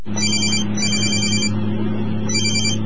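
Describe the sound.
A mobile phone ringing in a moving car: three bursts of a bright, warbling electronic ringtone sound over a steady low hum.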